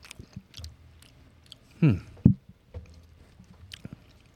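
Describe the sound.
Chewing on vinegary sauced food: a few soft, wet mouth clicks and smacks, with two louder, brief bursts of chewing in the middle.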